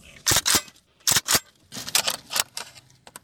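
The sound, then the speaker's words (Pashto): Sharp metallic clacks and clicks as a Kalashnikov rifle kept at home in Khost is cleaned and handled, coming in uneven bursts with a cluster of quicker, lighter clicks near the end. “سیف الله د هغه کلاشینکوف په پاکولو بوخته چې په کور کې د بیړنیو پیښو پر مهال د ځان او د کورنۍ د غړو د خوندیتوب لپاره ساتلی.”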